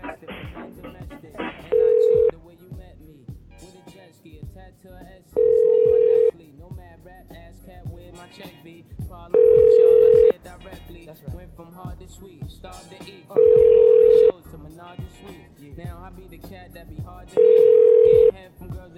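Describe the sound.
Ringback tone of an unanswered phone call: five steady, single-pitch tone bursts repeating at regular intervals of about four seconds, each lasting under a second, with continuous talk running underneath.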